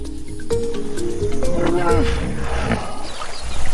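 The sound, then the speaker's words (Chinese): Harsh, loud hippopotamus roar, a rough rumbling call with rising and falling pitched bellows, heard with a voice talking over it. “河马会发出各种声音交流，这种刺耳的咆哮十分响亮，几千米外都能听得到。”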